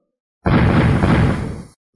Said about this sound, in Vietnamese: Từng tiếng nổ trầm đục vang lên